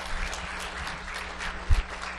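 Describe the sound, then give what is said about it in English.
Audience applause rises as people give another round of clapping. It is a steady, fairly faint wash of many hands clapping, with no voices over it. “Let's give them another round of applause.”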